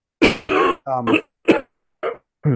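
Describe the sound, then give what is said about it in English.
A person coughing and clearing their throat in a rough, partly voiced series of about six bursts, with short gaps between them. “I say metal, and all of a sudden you started coughing.”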